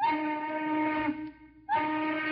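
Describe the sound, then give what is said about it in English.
Factory steam whistles on tall smokestacks at Detroit auto plants shriek for a shift change: a long, loud, harmonic-rich blast that fades, then after a short gap a second blast that runs to the end. “The whistles atop the gaunt, dark smokestacks shriek out their call to change shifts.”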